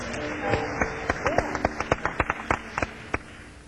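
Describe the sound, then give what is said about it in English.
Scattered applause from a concert audience before a song: a few hands clap sparsely at first, then more quickly and sharply in the middle, with a voice talking over it. “You can't applaud when you don't know what the hell the song is yet.”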